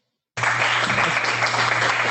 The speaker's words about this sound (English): Send me some fake applause. One sec. Okay. I just, Jason, I just sent you a couple of little applause clips.